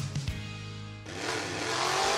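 Car engine revving: a droning harmonic engine tone gives way to a louder, broader roar about halfway through, growing steadily stronger to the end.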